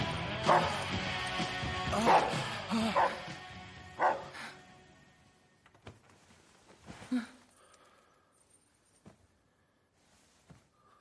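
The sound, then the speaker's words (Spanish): A dog barks at a couple on a bed. Several loud, sharp barks come early, then a few fainter, sparser sounds follow and fade into near silence. “mientras el perro les ladra”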